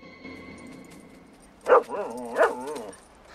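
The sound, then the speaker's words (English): A female dog answers a call from the undergrowth with two short, whining yelps, the second slightly weaker than the first, set against a quiet background. “The dog answers Rourke's call.”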